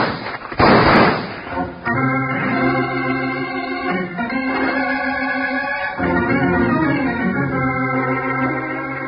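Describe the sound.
A gunshot at a mountain pass in a radio Western drama: one loud, sharp blast near the start with a ringing tail, followed by sustained tones.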